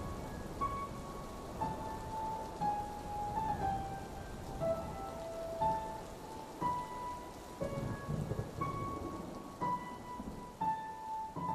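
Heavy rain with thunder: a dense, continuous hiss of pouring rain on surfaces under low rolling rumbles that swell and ease throughout, steady and fairly loud, with no voices.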